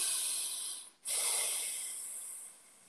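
Deep breathing through the nose makes a soft, airy hiss that dips and breaks off briefly. A second long nasal rush follows and slowly trails away. The breathing is quiet and heard alone.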